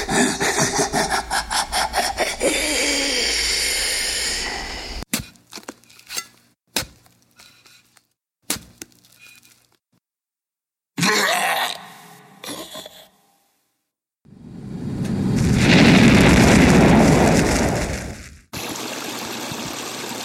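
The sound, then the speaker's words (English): Staged effect of a vampire being impaled on a wooden stake and exploding: harsh rasping, wood-like scraping, then a few sharp cracks between quiet gaps, and finally a loud, swelling rush of noisy hiss that cuts off abruptly. “The sound of a Jeffrey Epstein vampire exploding as we impaled him on a wooden stake.”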